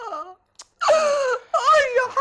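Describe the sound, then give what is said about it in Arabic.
A woman crying in a few drawn-out, wavering wails with a brief gasp between them, loud and strained, the sobs rising and breaking as she pleads. “العياط ده لا هيقدم ولا هيأخر”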